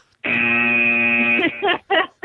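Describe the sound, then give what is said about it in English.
A game show buzzer sounds once in a single sustained, harsh, steady buzz of a bit over a second, cut off abruptly and followed by brief bursts of talk. “Hit the buzzer”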